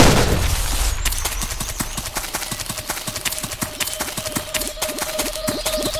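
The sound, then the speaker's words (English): Machine gun fire in a video game, a loud, unbroken stream of many rapid sharp shots at a fast, even rhythm, with a faint steady tone running beneath the burst. “Automatic rifle? Not, sounds like a machine gun.”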